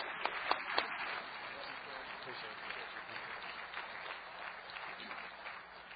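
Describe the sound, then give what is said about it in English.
A church audience applauds to welcome a visiting preacher. A few sharp claps stand out at the start, then a steady spread of clapping continues with voices mixed in. “And so you welcome Brother Hanks tonight. Let's give him a good round as he comes to preach to us.”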